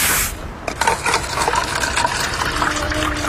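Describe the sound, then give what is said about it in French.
A drink is poured into cups with a steady gushing, splashing stream of liquid. A faint tone rises slightly toward the end as the cups fill. “Les gobelets. Je vais les remplir, comme ça ils vont pas s'avirer.”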